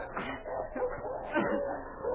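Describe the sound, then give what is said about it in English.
Wolves howl as several faint, overlapping, wavering cries rise and fall with short yipping and whining notes, continuing for the whole stretch. “That howl. It's wolves. I have to go on. They'll follow me.”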